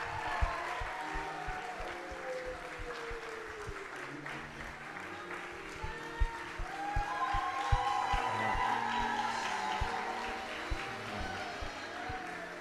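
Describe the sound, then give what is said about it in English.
A church audience applauds a volunteer, with steady, sustained clapping from a crowd that continues throughout, mixed with scattered voices. “Come on, let's give her a hand.”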